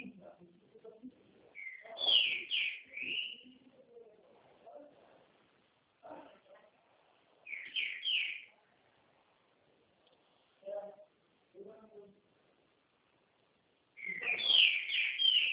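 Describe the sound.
A small bird sings in a few short bursts of high, bright chirping phrases, separated by quieter gaps where a man talks softly.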